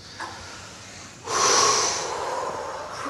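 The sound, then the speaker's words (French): A deep breath drawn in during a guided relaxation exercise. After a faint earlier sniff, a loud, breathy rush starts suddenly and is held for over a second, then eases off gradually. “Et maintenant, vous prenez une grande respiration,”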